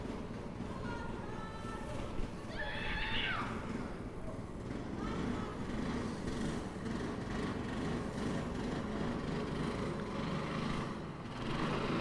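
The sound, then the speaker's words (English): Racing car engines drone during Friday afternoon practice at the Cowdenbeath motor racing track, a faint, continuous rumble that stays level, with one brief higher engine whine rising early on. “Friday afternoon motor racing practice at Cowdenbeath.”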